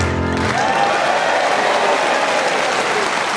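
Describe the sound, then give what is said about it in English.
A Manchester audience breaks into applause as a song ends, a brief musical tail giving way to a loud, steady wash of clapping and crowd noise that holds to the end. “Not helped with the sound of the Manchester audience there.”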